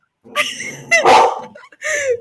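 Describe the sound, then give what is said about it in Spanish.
Dogs barking angrily: three short, harsh bursts in quick succession, with whiny, yelping edges. “Tus perros están enojados.”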